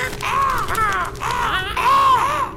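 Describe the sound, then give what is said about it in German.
Ravens caw in a few harsh, raspy calls with arching, slightly wavering tones. The calls are loud and follow one another closely. “verwandelten uns in Raben und ließen uns auf der Stange nieder.”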